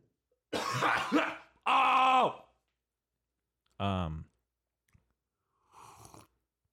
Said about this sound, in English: sorry for that cough.